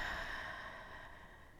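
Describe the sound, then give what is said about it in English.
A slow, soft breath let out through the mouth during a yoga breathing exercise: a faint, airy hiss that fades gradually, with no talking. “take three deep breaths, taking an inhalation through the nose, and then an exhalation right out the mouth.”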